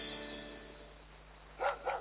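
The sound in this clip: Two short dog barks, a guard dog, rise over a faint low hum after a quiet stretch of fading tones; the pair comes close together near the end.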